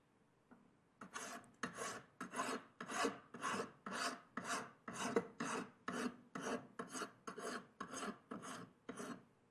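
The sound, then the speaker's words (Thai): A hand file rasps across metal during rough filing in many steady back-and-forth strokes, each a harsh scraping burst in an even rhythm, fairly quiet and with no talk over it. “ในขั้นของการตะไบหยาบนะครับเราจะตะไบแต่เพียงเท่านี้นะครับเริ่มเห็นตัวของผิวโลหะที่เป็นสีเงินออกมาบ้างแล้วนะครับ”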